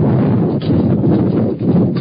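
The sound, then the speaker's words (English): Wind gusting across a microphone outdoors at a baseball game, a steady, dense rumbling roar with slight surges and no voices. “Got the wind blowing stuff over here to my right. Thank you on that one. Got to pick up all my stuff. Tell you what, the wind is not very favorable today.”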